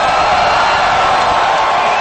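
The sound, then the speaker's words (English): A live audience crowd cheers and roars for a guest being introduced on stage, a loud, continuous wall of noise that stays at an even level throughout. “That's an awesome crowd out there, man. That crowd is awesome. They're so fired up.”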